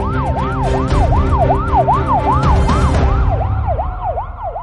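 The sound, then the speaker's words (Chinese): A police car siren wails loudly over engine rumble in rapid, repeating rising-and-falling sweeps that continue throughout, at the scene of a car crash. “后面的警车赶了上来”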